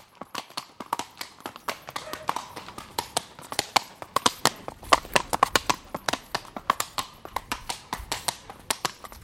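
Hooves of a 20-year-old Andalusian stallion performing a canter pirouette in a classical riding display: many sharp clip-clop strikes in a steady, repeating grouped rhythm, moderately loud throughout.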